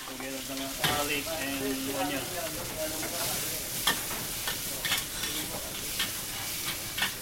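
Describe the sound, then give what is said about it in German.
Minced pork sizzling as it fries in a restaurant kitchen in Macau, a loud, steady crackling hiss throughout, broken by several sharp clacks of a utensil stirring the pan. “In der Küche brutzelt gehacktes Schweinefleisch.”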